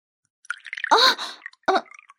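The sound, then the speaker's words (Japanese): A drink, likely sake, is poured into a cup during a round of drinks, giving a few short liquid splashes and gurgles with brief gaps between them; fairly loud, with no talk. “また私に注ぐんですか？”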